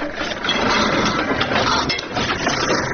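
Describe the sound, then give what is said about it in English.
Mechanical clatter of a nearly 100-year-old, motorless, foot-powered 360-kilogram Platen letterpress printing designs on paper, a continuous busy rattle at moderate level. “The company uses a 360-kilogram Platen letterpress machine to make its creative designs.”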